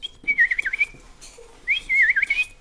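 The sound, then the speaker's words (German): A person whistles an imitation of a bullfinch's call in two clear, wavering, warbled phrases separated by a short gap. “Die Vögel der Heimat. Der Dumpfaff. Der Dumpfaff pfeift so.”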